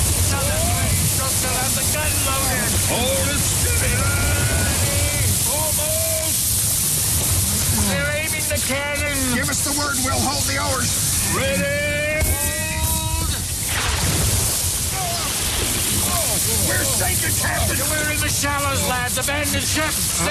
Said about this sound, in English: Keep rowing. Don't stop now. Another 20 strokes and we'll be ashore. I'm pulling as fast as I can, but the wave.